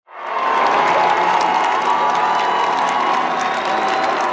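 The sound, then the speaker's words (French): A huge crowd of faithful cheers and applauses at an outdoor papal mass, the roar swelling quickly from silence into a loud, sustained mix of clapping, shouts and whistles. “Le pape Léon XIV, encore une fois, acclamé.”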